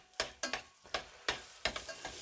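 Merguez sausage frying in oil with onion and garlic: a steady sizzling hiss broken by several sharp scraping stir strokes in an uneven rhythm, with no talking.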